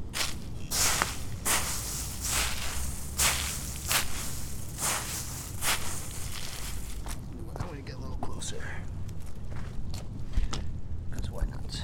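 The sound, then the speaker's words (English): Footsteps walking on soft dirt and then through crunchy leaves: a steady run of crisp, scuffing steps with dry crackling, while a person talks over them. “I'm also gonna make some noises. So here's me kind of walking around in dirt. Pretty soft. Here's the leaves.”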